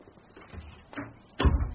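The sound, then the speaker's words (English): A household door being shut gives a soft knock and then a louder, dull thud, both faint, with no talking around them. “And close the door. We don't want any drafts.”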